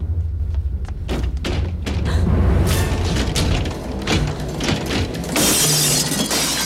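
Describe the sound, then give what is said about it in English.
Glass panes shattering as men smash through locked doors into a reptile house: a loud, dense run of crashing and thudding impacts, ending in a bright burst of breaking glass. “As they start to smash through the glass panes”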